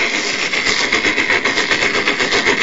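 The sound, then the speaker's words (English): Machine gun fire sound effect: a loud, unbroken stream of rapid shots with a dense, rattling texture and no pauses or voices. “I'm sorry. I love your show, but I've got to kill you both with this machine gun.”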